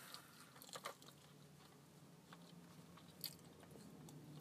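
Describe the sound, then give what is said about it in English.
Faint crisp biting and chewing of a bagel, with a few soft crunchy bites scattered across a quiet background and no talking. “Let me just finish eating my bagel.”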